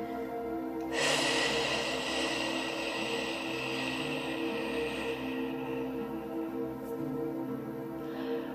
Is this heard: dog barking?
no

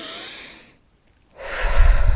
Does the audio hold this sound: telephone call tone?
no

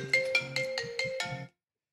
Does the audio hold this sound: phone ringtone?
yes

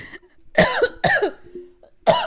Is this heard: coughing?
yes

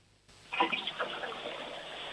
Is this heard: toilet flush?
yes

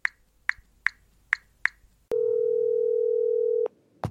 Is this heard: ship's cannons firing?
no

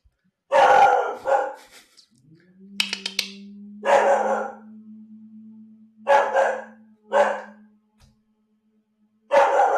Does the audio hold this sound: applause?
no

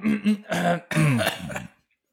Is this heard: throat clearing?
yes

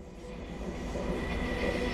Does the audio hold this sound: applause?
no

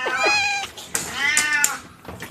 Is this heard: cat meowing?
yes

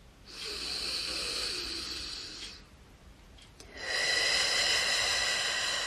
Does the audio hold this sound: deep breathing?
yes

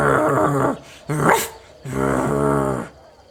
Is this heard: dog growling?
yes

